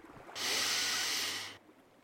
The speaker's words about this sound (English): let's take one big deep breath again together